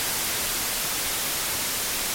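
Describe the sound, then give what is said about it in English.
Plain white noise, heard as one of several noise colours: a harsh, even static hiss that holds at a constant level throughout, with no voices over it. “And next we have just plain old white noise”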